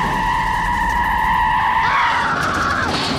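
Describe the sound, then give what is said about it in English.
Tires squeal steadily as a van pulls out of a driveway and skids, nearly hitting a boy, over a rumble of engine and road noise. The screech holds a sustained tone that wavers and bends near the end. “They're arguing about how it's stupid, driving their van out of the Murphy's driveway when they almost hit Kevin.”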